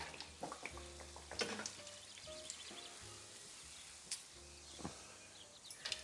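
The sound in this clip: Donuts frying in a bath of hot oil, giving a soft, continuous sizzle with scattered crackles and pops, faint throughout.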